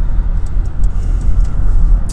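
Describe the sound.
A car driving on the road, giving a loud, continuous low rumble of engine and tire noise that holds steady throughout, with no voices heard.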